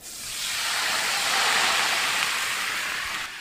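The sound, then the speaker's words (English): White wine, a Pinot Grigio, hits a hot pan to deglaze it with a loud, broad sizzling hiss that swells quickly, holds steady for about three seconds, then tapers off. “I'm just going to deglaze the pan generously”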